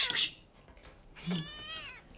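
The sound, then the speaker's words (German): A cat gives one drawn-out meow with a slightly wavering, whiny tone. It is moderately loud and follows a quiet stretch. “Nimm die Katze weg. Wenn sie in die Takelage klettert, ist alles zu spät.”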